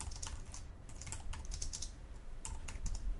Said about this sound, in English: And now I want to write a couple of lines of code here.